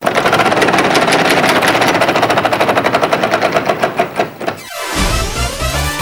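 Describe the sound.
A big prize wheel spinning in a game, its rapid, loud ticking clicks spaced wider and wider as the wheel slows to a stop.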